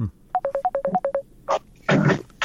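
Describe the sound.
Touch-tone keypad beeps sound while dialing a Skype call: a rapid, even run of many short tones alternating between two pitches, then a brief burst and a longer stretch of hissy, crackling noise.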